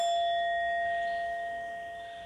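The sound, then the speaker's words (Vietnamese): A struck bell rings on in a sustained, fairly faint tone, its steady overtones slowly fading with no other sounds. “Dù bây giờ đánh cái chuông thì mình nói mình nghe”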